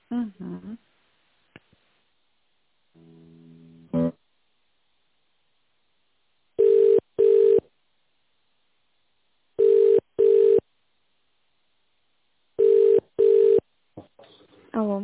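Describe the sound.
A telephone ringback tone plays while a call is transferred: three paired bursts of a steady mid-pitched tone separated by silent gaps, with brief voices at the start and end.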